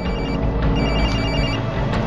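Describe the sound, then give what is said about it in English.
A cell phone ringing with an incoming call gives out steady, high electronic ringtone tones that sound continuously over a constant, dense background noise. No voices are heard. “We got a call coming through on Lynn's cell phone. We're putting it through.”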